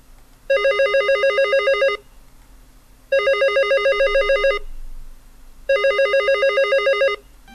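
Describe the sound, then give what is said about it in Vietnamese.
A telephone bell rings repeatedly in a home in the evening: three long, trilling rings of about a second and a half each, separated by short silent gaps, bright and insistent over a faint low hum. “Nhưng chuông điện thoại cứ reo lên liên tục khiến cho mình bực mình lắm.”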